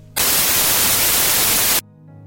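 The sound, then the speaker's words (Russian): White noise: a loud, flat, even hiss of random sound across all pitches, switched on abruptly and cut off after about one and a half seconds. “То, что вы слышали, называется белый шум. То есть на всех частотах происходит случайные колебания.”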